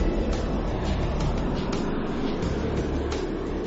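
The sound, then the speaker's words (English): A volcanic vent where a pool of liquid sulfur bubbles gives off a dense, steady rumbling roar. Faint pops and gurgles rise briefly from the constant loud wash. “There's so much liquid sulfur in that one spot. It's just bubbling away.”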